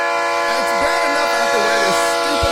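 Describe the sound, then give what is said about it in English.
A train horn or whistle sound effect: a loud, sustained, steady chord of tones lasting the whole clip, with faint wavering tones over it. “We got a train running up in this house.”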